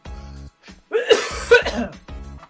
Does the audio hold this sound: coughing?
yes